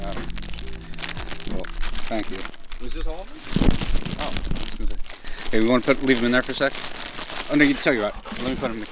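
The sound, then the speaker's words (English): Plastic crinkling and rustling as two large Ziploc bags full of microcassette tapes are removed, with crackly handling noise running continuously under people talking. “What you just heard is me removing two large Ziploc bags full of microcassette tapes.”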